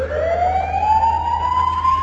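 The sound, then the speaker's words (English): A police car siren wails in one long, smoothly rising tone, loud and unbroken over a steady low vehicle rumble. “Uh-oh, the police. What did we do?”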